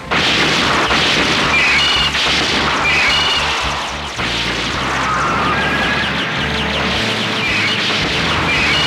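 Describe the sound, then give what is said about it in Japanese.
Shells fired in rapid succession in an animated sci-fi battle scene, a dense, loud barrage of booming explosions and crashes that overlap continuously with no clear gaps. “D 弾 G 弾連続発射。”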